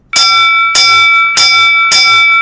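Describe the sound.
A school bell rings out the first bell of a new academic year. It makes four loud, evenly spaced strikes, and each bright metallic ring sustains until the next.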